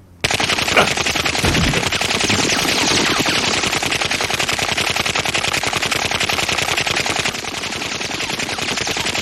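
Rapid automatic gunfire fills the whole nine seconds, loud and unbroken, with dense, fast-repeating sharp reports and no pauses.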